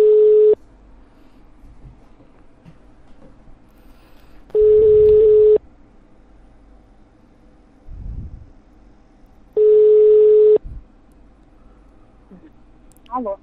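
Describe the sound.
Telephone tones during an outgoing call: three long, steady mid-pitched beeps of about a second each, separated by quiet gaps with faint background noise.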